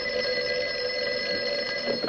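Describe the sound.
Telephone ringing as a sustained electronic tone, bright and fairly loud, holding steady with layered high pitches throughout the short clip and no speech over it.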